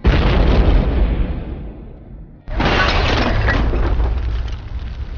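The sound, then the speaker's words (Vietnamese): Loud thunder and explosive booms during a storm: a heavy crashing roar that slowly fades, then a second abrupt boom that bursts in and rumbles on at steady strength. “Sau cuồng phong tiếp tục đến sấm sét nổi lên, vọng đến một tràng những tiếng nổ đùng đoàng vang dội.”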